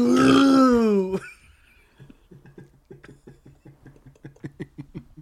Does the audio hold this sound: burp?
yes